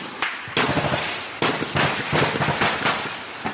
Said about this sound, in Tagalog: Fire rw'amasasu rwakomeje kumvikana kuva mu masaha ya mu gitondo kugeza amasaha y'umugoroba kuri uyu wa kane.